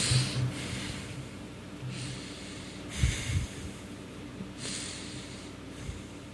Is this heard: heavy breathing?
yes